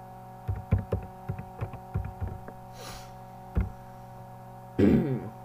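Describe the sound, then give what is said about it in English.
Keys clack on a computer keyboard in irregular bursts of clicks over a steady low hum, followed by a pause and a louder thump near the end. “Need to write that down. Or type that down, I guess.”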